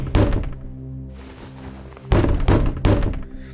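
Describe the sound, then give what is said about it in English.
Heavy thuds of a door being broken down: one forceful impact, a pause, then a quick run of loud, booming blows in close succession. “Did you just break my door down?”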